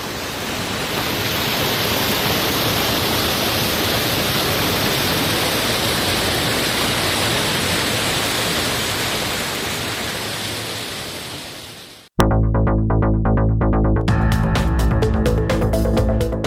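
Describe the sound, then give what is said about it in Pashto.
Water from the Mazar Baba spring in Uruzgan, Afghanistan, flows with a dense, steady rushing hiss. It holds even for about twelve seconds, fades slightly, then cuts off abruptly and gives way to a louder, rhythmic tonal sound. “د اورزګان د مزار بابا په نوم دا چینه د دې ولایت یو له مشهوره تفریحي او تاریخي سیمو څخه ده چې د ښکلي طبیعت او یخو اوبو په لرلو سره د خلکو لپاره د آرامۍ او ساتیري یو غوره ځای دی.”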